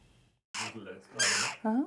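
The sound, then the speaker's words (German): Hungry jackdaw chicks calling: three loud, harsh, raspy begging bursts follow a faint lead-in, and the last carries a more tonal, ringing squawk. “Die Dohlenkinder machen ganz schön Rabatz. Sie haben Hunger, jede Menge Hunger.”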